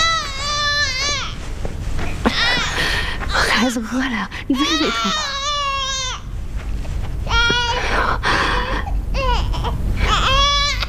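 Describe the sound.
A hungry baby cries loudly and without pause, in repeated high, wailing bursts whose pitch wavers and breaks, over a steady low background hum.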